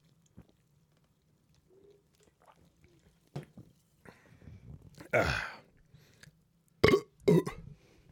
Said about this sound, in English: I have a warm soda, too. Crack this, motherfucker. I'm so sorry. It's warm.